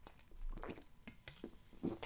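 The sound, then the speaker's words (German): A sip of a drink: faint wet mouth sounds with a few soft slurps and swallowing clicks, scattered and quiet, with no talk. “Ja, und Achtung, ein Schluck.”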